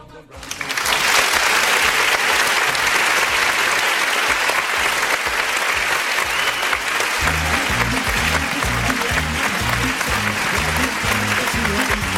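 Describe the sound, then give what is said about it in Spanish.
Loud audience applause for a group of collaborators, swelling in quickly and then holding as dense, continuous clapping throughout. “A mi gente colaboradora, que está siempre ahí al pie del cañón, un aplauso para ella también.”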